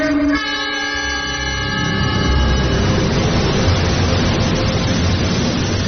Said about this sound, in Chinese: 5818次列车准备完毕，发车。